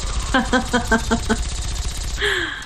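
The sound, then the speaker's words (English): A Gatling laser fires at ghouls in the video game Fallout: a rapid run of six pulsed, buzzy electronic zaps, then a longer whining tone that falls slightly in pitch. “So while Rick is having a good time just destroying these ghouls with his Gatling laser.”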